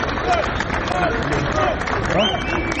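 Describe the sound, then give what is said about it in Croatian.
A crowd of more than a thousand townspeople holding Albanian flags applauds and cheers outside the municipal building in central Bujanovac to welcome the president of Albania, a dense, steady wash of clapping and crowd noise with voices mixed in. “Čekanje ovacijama i aplauzom.”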